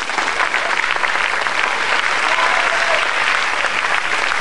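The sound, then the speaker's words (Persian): Sustained audience applause during a talk on Bahá'í teachings: thick, continuous clapping stays loud and steady for several seconds. “چرا اینقدر دست میزنیم”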